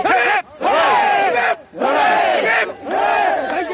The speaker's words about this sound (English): And for the Gurkhas, a chant the embattled Prime Minister hasn't heard for a while.